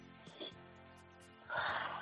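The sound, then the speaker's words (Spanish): A deep breath drawn in during a breathing exercise: a soft breathy puff early on, then a loud, rushing inhale that swells over the final half second. “Respira fuerte para arriba. 1, 2, 3 y...”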